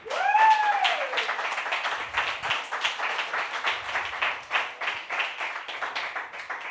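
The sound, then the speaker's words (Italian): An audience at a comedy night applauds, with dense, steady clapping that holds at an even loudness throughout. A brief high, pitched whoop rises and falls at the very start. “Facciamo un applausone!”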